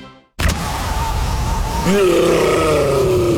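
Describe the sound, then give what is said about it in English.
A rough, growling roar, said to come from a yeti inside a fridge, rumbles loudly and steadily. In its second half it takes on a strained, groaning tone. “That's the sound of a Yeti in the fridge. Yeah, there's a Yeti in the fridge.”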